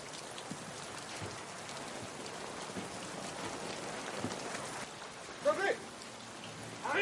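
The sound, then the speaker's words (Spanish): Heavy rain falls steadily on an outdoor prison yard where prisoners dig holes in the ground, a dense, even hiss of drops that stays constant and fairly faint throughout. “Llueve intensamente.”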